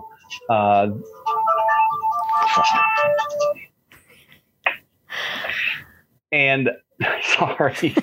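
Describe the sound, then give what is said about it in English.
A mobile phone ringtone plays a melodic sequence of electronic tones lasting a couple of seconds. Voices are heard talking before and after it. “my phone went off. I'm sorry.”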